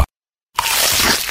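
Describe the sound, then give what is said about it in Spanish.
Crunchy bite of a snack in a commercial: after a short silence, one burst of dense, crackling crunch lasts under a second. “Crujiente a cada mordida.”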